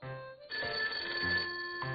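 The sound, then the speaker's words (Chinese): A telephone ringing: a steady electronic ring with sustained tonal notes that shift slightly in pitch across two seconds, fairly quiet and heard alone without voices. “打电话的是大熊先生。”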